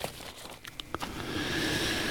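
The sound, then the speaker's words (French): Small papers are tidied away with light crinkling and rustling: a few sharp crackles at first, then a steadier, louder papery hiss. “Bon, allez, je range mes petits papiers. En attendant, je fais le ménage.”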